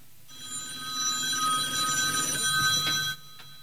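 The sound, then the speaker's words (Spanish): A telephone rings in one continuous, fairly faint electric bell trill lasting about three seconds, then cuts off abruptly, with no voices. “El sonar del teléfono le sacó su abstracción.”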